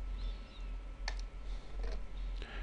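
A few faint, crisp computer mouse clicks, spaced irregularly over a low steady hum, with no talk.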